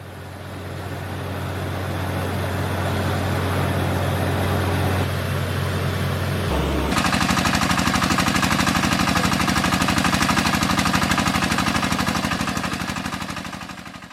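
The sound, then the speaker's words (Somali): A drilling rig bores a water well for a village, its engine giving a loud, steady drone with a dense rattling pulse that turns harsher and more rhythmic partway through. “Muuqaal ay baahisay Al-Kataib Al-Ikhbaariya ayaa muujinaya riiga oo ceelka qodaya, ugu dambeynna Allaah fadligiis biyo ka soo saaraya.”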